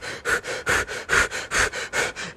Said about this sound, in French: Faut juste que je respire. OK, je vais respirer, là. J'ai besoin d'air.